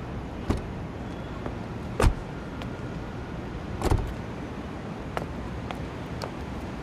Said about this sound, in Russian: Едет машина.